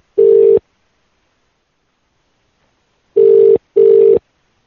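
Telephone line tones while placing a call: three steady mid-pitched beeps, a single one first and then, after a long silent gap, a quick pair.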